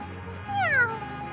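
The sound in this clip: A cat gives a single drawn-out meow with a clear, tonal cry that slides downward in pitch at the end. It is heard alone over a faint low background hum.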